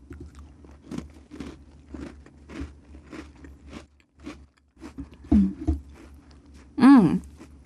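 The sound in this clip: Biting and chewing a crunchy silkworm cookie: many soft, rhythmic crunches about half a second apart, with a few louder bites toward the end.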